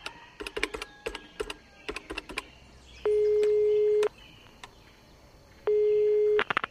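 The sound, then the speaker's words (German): A telephone number is dialed for a call to Bogotá: a quick run of clicking key presses, then two long, steady, mid-pitched ringing tones separated by a pause, with faint clicks between them. “Das Telefon ist da drüben. Ich wählte meine Nummer.”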